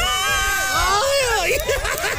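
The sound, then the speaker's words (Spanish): A woman lets out a Mexican grito, a loud, sustained, high-pitched cry that warbles and wavers in pitch for about two seconds. “Échese su grito mexicano.”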